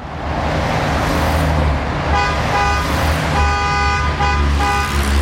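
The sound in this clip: Steady, loud roar of road traffic on the A13 Brenner motorway, with several tonal horn-like toots sounding over the continuous rumble in the second half.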